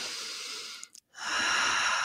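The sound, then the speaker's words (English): A long, airy nasal inhale during a guided breathing exercise, a sustained hiss that breaks off briefly near the middle before the breath sound resumes just as strongly. “in through the nose”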